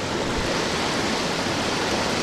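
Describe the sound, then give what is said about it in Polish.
Running, churning water from a hydromassage bathtub at a facility with many such tubs: an even, fairly quiet rushing hiss that stays constant throughout, with no talk. “To, co właśnie słyszymy, to dźwięk wydobywający się z wanny do hydromasażu,”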